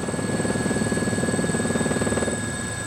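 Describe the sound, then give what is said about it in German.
A helicopter flying over Malta gives a steady, loud pulsing rotor chop with a constant high whine running through it. No voices are heard. “die Gelegenheit benutzt, mir per Hubschrauber halb Malta aus der Vogelperspektive zu zeigen.”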